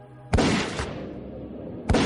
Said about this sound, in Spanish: Le dispara en el pecho.